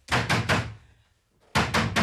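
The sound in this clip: Heavy pounding on a door by someone trying to break it down: three loud thuds in quick succession, a pause of about a second, then three more equally forceful blows.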